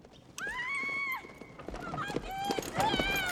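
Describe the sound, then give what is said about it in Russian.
A pair of horses gallops while pulling a wagon: a loud, high whinny rings out, followed by rapid, thudding hoofbeats and further neighing. “Повозку несет пара лошадей. Вожи держит женщину. Док и Марти скачут за повозкой.”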